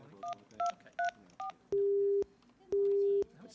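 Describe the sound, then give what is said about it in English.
Telephone keypad dialing: four short two-tone beeps at an even pace for a four-digit code, followed by two longer steady single-pitch tones separated by a pause. “What's the dialing code? 4883. I'll give it a try.”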